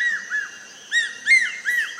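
High whistled calls from a large, crested hawk-eagle: a few short, clear notes, then several louder whistles with a bent, slurred shape, repeating at a brisk, uneven rhythm.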